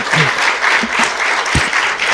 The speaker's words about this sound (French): on va le bénir dans le Seigneur, on va l'applaudir pour l'encourager